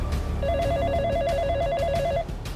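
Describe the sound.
A warbling electronic telephone ring sounds as a frightened man calls a Scotland Yard detective, one steady mid-pitched trill lasting under two seconds over a low, quiet background.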